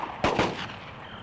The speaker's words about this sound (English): Will you stop your shooting?